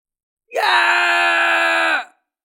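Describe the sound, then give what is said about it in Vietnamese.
A man screams loudly in pain, one long sustained cry lasting about a second and a half at a steady pitch, heard alone with silence before and after. “Tiểu Nhược Thiên Quân hét lớn, máu tươi chảy dài trên cổ”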